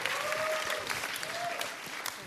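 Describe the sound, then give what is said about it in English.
A room gives a round of applause for a speaker, with brisk, dense clapping that is loudest at the start and eases off gently toward the end. “Round of applause for Leanne, please.”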